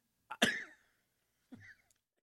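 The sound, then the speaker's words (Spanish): A person coughing in two harsh bursts separated by a pause, the first louder and longer than the second, with no talk. “válgame Dios, me agarró la tosecita.”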